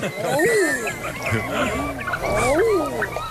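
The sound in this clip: Common eider ducks calling, with several overlapping, swooping, moaning coos that rise and fall in pitch, repeated at a steady pace.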